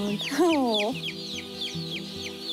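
Day-old chicks peep continuously in a warm poultry barn: rapid, high, falling chirps overlap one another above a steady low hum.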